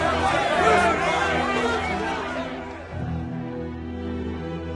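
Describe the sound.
A crowd crying out in a dramatized Bible reading: many agitated voices shout together, loud at first, then drop off sharply after about three seconds.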